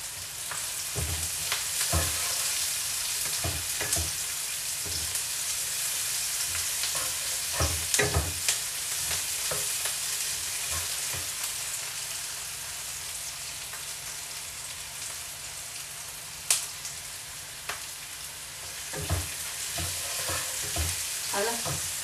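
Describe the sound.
Softened onions sizzle in a pan with cooking wine: a steady, hissing fry runs throughout, broken by frequent scraping stir strokes.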